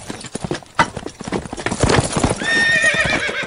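Horses' hooves clip-clop in a quick, steady stream of many hollow beats as riders set out on patrol, and a high, wavering whinny rises over them near the end.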